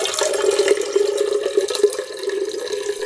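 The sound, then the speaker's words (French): Water pouring into a watering can, as when it was filled at a fountain, makes a steady, unbroken gush with a hollow ringing tone that holds for the whole stretch, with no talking. “Vous aviez le bruit de l'eau qui coule dans l'arrosoir.”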